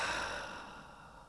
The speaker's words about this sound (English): Let's just take a deep breath in and absorb this great truth and exhale.